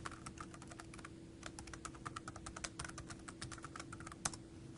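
Login credentials are typed on a computer keyboard in a rapid, uneven stream of crisp keystroke clicks, over a low, steady hum.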